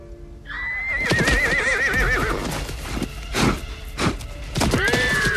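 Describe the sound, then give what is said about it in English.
A horse neighs as it rears up, front legs pawing the air. A long, loud, wavering whinny is followed by several heavy thuds and hoof knocks, then another short neigh near the end. “Looking at Grace with the same left eye, Pilgrim rears up, front legs pawing the air.”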